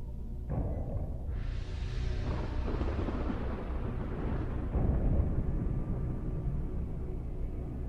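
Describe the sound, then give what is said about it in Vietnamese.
Deep rolling thunder from repeated thunderbolts striking down from the clouds. A sharp crack near the start and a second surge soon after swell into a dense, continuous low roar that rumbles on steadily and loudly for several seconds. “Những tiếng đùng đùng liên tiếp vang lên. Từ trên đám mây, thần lôi liên tục bổ xuống”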